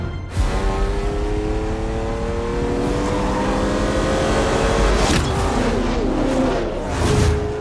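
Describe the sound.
A Ferrari racing car engine revs loudly and continuously, its tone climbing in pitch, dropping back, then climbing again, with a brief surge of extra roar partway through.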